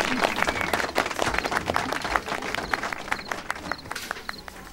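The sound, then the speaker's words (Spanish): Scattered clapping from a small audience acclaiming a speaker as he is invited up at a talk. The claps come quick and irregular, fairly faint, and thin out slightly toward the end. “El público lo aclama.”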